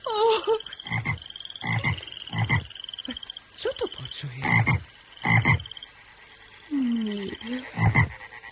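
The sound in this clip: Frogs croaking in chorus, with repeated rasping croaks in uneven bursts over a steady high trill. A brief spoken line occurs partway through.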